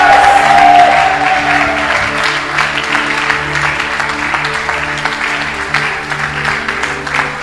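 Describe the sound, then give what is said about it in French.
A church audience applauds and cheers in praise with dense, continuous clapping and sustained voices. The sound is loudest at the start and eases slightly over the rest. “Est-ce qu'on peut acclamer fortement le Seigneur”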